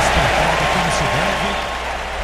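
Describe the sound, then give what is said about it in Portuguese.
Steady, dense applause from both sets of football fans filling a stadium as a minute of silence ends before a major Cup match involving Spain's national team, a continuous roar of clapping that holds throughout. “Aplausos das duas torcidas, portanto, vamos para o jogo.”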